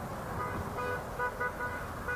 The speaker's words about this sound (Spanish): Bocinazos, alientos, mucha gente con mucha algarabía.